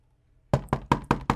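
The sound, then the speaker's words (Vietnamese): Five sharp knocks on a room door in a steady, evenly spaced rhythm, loud and alone after about half a second of silence. “Tiếng gõ cửa không ngừng vang lên bên ngoài cửa phòng, làm Kiều”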